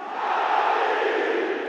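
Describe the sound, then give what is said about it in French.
A stadium crowd roars for Edinson Cavani's 196th goal for Paris Saint-Germain, a brief, loud, steady wash of cheering. “Là, ce que vous entendez, c'est le 196e et peut-être dernier but d'Edinson Cavani sous les couleurs du Paris Saint-Germain.”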